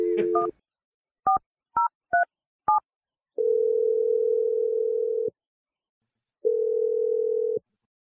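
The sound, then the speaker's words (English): Touch-tone dialing of a phone number: a few short keypad beeps in quick succession, followed by two long, steady ringing tones separated by a pause. “Let's dial this number and see what she has to say.”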